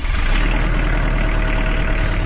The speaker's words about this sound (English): That's the sound of a Kubota Standard L compact tractor, now rolling off the line from Kubota's assembly line in Jefferson, Georgia.